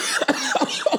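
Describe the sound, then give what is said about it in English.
A man coughing, a few short, voiced hacks in quick, uneven succession over a little more than a second. “There he goes. He's coughing.”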